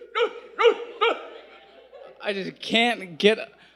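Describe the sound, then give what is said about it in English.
A dog barking in short, sharp yaps: three evenly spaced barks, a brief pause, then a louder cluster of rougher, more strained barks. “you see this dog, and it's a dog's bark”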